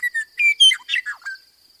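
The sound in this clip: Western meadowlark song: a brief phrase of clear, flutelike whistled notes that breaks into a quick gurgling warble, fairly loud and heard alone.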